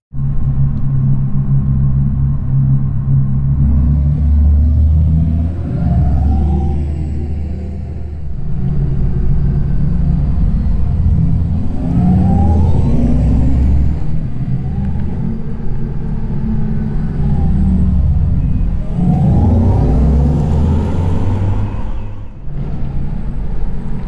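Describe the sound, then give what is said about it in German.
Engineered drive sound of an Audi e-tron GT electric car: a loud, continuous deep rumbling hum with a few rising, whirring swells in pitch. No talk is heard. “wie das dann ganz praktisch klingt bei Audi, hört man sehr schön am neuen Audi e-tron GT. Hier klingt der Sound dann so.”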